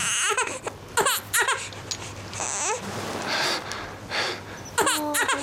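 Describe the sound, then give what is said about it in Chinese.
An infant crying while a nurse tends to it: many short, shrill wailing bursts broken by catching breaths and whimpers, fairly loud throughout. “别哭别哭啊，乖乖乖乖啊，乖乖乖，哎呦，护士你轻点啊，轻点， 好了好了”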